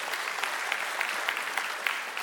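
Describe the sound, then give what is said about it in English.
An audience claps together in a church service, a dense, steady wash of applause with many overlapping hand claps, loud and continuous throughout. “You can give a hand for that.”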